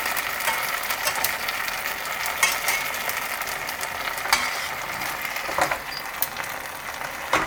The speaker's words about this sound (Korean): 그리고 소스를 강불로 하고 소스를 이렇게 소스를 먹여줘요.